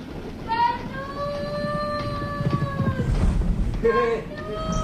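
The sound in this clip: A train runs on rails, its steady rumble carrying on throughout with a few sustained tonal lines above it, while people talk over it.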